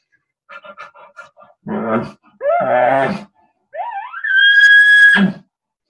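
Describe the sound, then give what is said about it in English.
A bull huffs, grunts and whines during a breeding sequence: a quick run of short huffs, then two deep, rough grunts, then a long, strained whine that rises in pitch before it cuts off. “just a bull just huffing. And here's an example of huffs, grunts, and whines.”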